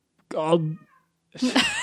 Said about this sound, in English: meowing real loud.